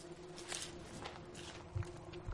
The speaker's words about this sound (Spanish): La dama se marcha seguida por la criada.